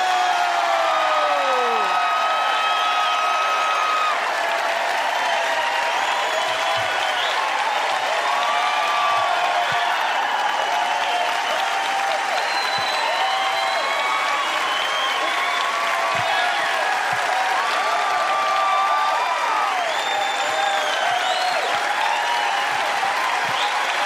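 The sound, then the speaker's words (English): Audience applause welcoming a comedian to the stage at the Fillmore in San Francisco: long, dense, steady clapping mixed with cheering and whistles, sustained loudly throughout. “Please put your hands together and welcome to the stage, Miss Janine Garofalo.”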